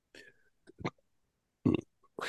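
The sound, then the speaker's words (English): Belching from a person during an energy-healing session: a few short voiced eructations separated by quiet gaps, with one louder, low, rumbling burp standing out midway. “And by the way, my belching is shamanic clearing. I'm not being rude.”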